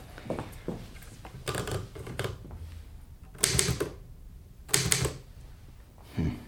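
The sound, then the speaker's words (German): Typewriter typing in bursts of rapid clacking keystrokes, the runs separated by short pauses, with a few louder clusters of strikes and no talk. “Die Schreibmaschine.”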